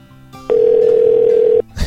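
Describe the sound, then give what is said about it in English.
Telephone dialing: one steady, clear phone tone lasting about a second, loud over a faint low hum, followed by a brief rustling noise as it ends. “Oh, yeah, and I have to dial one before the number. I always forget that. Let's try it again.”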